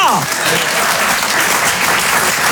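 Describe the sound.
Audience applause: dense, steady clapping from a crowd that keeps an even loudness throughout, with a voice faintly audible over it near the start.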